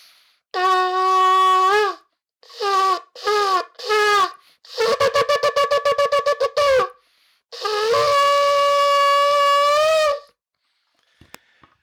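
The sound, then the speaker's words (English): Shofar blown for the first day of Elul: one long brassy blast, three shorter calls, a rapid run of staccato bursts, then a final long blast, all loud and alone. “this is my shofar, and this is the sound of the shofar for the first day of Elul.”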